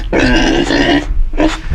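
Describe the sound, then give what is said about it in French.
A pig grunts on a farm: two loud, harsh, throaty grunts, the first long and the second shorter after a brief pause. “Elle est où la truie? C'est elle la truie.”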